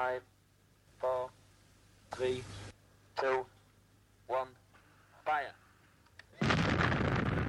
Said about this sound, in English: Demolition experts were on hand to prepare the charges and to check that all systems were go. Then, with hundreds of people watching, Ian waited for the countdown.